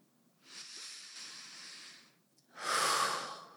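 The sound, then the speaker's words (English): A deep cleansing breath during a guided breathing exercise: a long, soft, airy breath, then after a brief pause a shorter, louder, rushing breath, with no voices. “Take another couple, just nice cleansing breaths at your own space, your own pace.”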